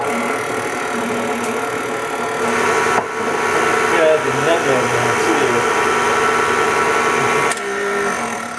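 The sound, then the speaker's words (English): An electric mixer beats egg whites, sugar, milk, heavy cream and bourbon. It gives a continuous, loud motor whir with a shifting, grinding texture that runs the whole stretch without pause. “All right, I'm firing back up the mixer.”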